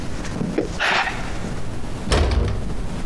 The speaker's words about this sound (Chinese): 先把门关上。